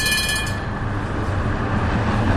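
Steady, loud rumble of wheels and running gear inside a moving city tram in Poznań, continuous throughout with no voices.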